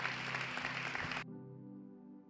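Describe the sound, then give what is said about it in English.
Church audience applauding to welcome new members during a service: dense, steady clapping that cuts off abruptly partway through, leaving only a quiet low hum. “can we just put our hands together and welcome some new people into God's family.”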